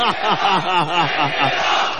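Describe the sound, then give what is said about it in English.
Studio crowd cheering and going wild, with many overlapping voices yelling and whooping loudly in a continuous roar. “Look at this, they're going crazy. Mary is showing off in the crowd and they love it, look at that.”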